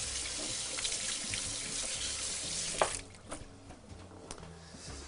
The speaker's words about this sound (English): So now that our onions have started to cook down just a little bit, i wash my hands.